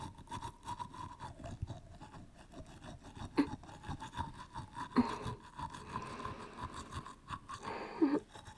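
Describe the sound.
Quiet toothbrush scrubbing teeth in repeated rasping strokes, with a few louder brushing bursts standing out from the soft, continuous scrub.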